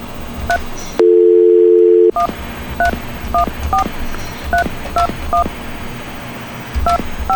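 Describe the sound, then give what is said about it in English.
Telephone keypad dialing over a VoIP line: a short tone, then about a second of steady low dial tone, followed by a quick series of many sharp two-note keypad beeps in an uneven rhythm. “Let me dial it. I'll go through the VoIP line.”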